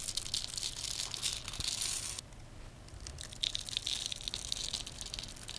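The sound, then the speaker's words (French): Crisp, crunchy crackling as a bar of soap is cut into small pieces, with little grains of soap falling away. The dense crumbling noise runs steadily, breaks briefly in the middle, then resumes. “Écoutez un petit peu ce que ça donne de découper du savon en petits morceaux.”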